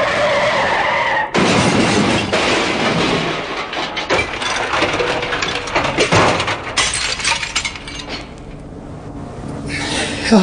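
A car brakes hard and skids while reversing at speed toward a building, a loud, harsh, sustained screech of rough noise lasting several seconds, with crunching bursts later and a brief drop in level near the end.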